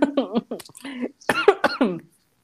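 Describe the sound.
Someone coughs in a rapid string of raspy bursts mixed with throat clearing, sounding almost like choking, then goes quiet.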